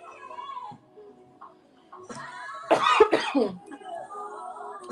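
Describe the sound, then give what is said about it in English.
A sudden cough or sneeze bursts out midway, a brief, loud, harsh blast that stands clear of the quieter voices talking before and after it. “You sneezed across, okay, bless you. Huh? I said you sneezed or coughed. Bless you either way.”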